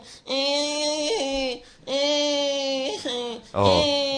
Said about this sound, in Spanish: ¡Oh, pero no llores! ¡Venga, venga! ¡Hala, hala! ¡Este cabrito no para de llorar!